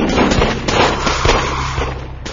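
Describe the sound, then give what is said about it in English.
Rapid gunfire from two heavy Luger pistols and a Browning in a dramatised fight, a dense, loud barrage of sharp overlapping cracks that runs continuously and eases slightly toward the end. “Two heavy Lugers and a Browning suddenly snapped into action.”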